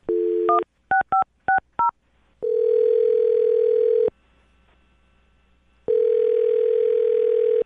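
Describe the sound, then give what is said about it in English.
Touch-tone keypad beeps as a phone number is dialed: a longer opening tone, then four quick beeps in a steady rhythm, followed by two long, even, steady tones separated by a silent pause. “I'm dialing his phone number right now”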